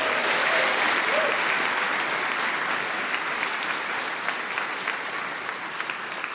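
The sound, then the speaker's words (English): An audience applauds, a dense, steady wash of clapping that stays loud for the whole stretch and thins only slightly toward the end, with a few sharper individual claps standing out. “that was actually your round of applause and congratulations from this audience”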